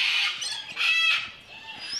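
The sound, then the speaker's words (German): White-naped cranes calling in a bird park within a nature reserve: two loud bursts of shrill, strident calls, followed by fainter, softer calls. “Diesmal sind es die Weißnackenkraniche.”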